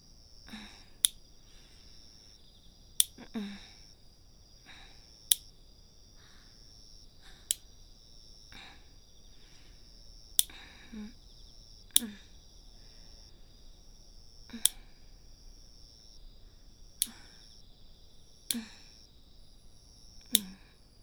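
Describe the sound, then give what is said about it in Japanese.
Nail clippers cut fingernails in a steady series of sharp, crisp snips, each a single bright click spaced a couple of seconds apart over a faint, quiet background. “では今度は反対の手、失礼します。爪を切るだけなんですから、そんなに緊張しなくても大丈夫ですよ。”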